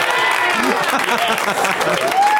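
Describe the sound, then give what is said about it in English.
A crowd applauds and cheers in a thick, continuous roar of clapping that stays loud for the whole stretch, with a voice audible underneath it. “And the crowd goes fucking crazy.”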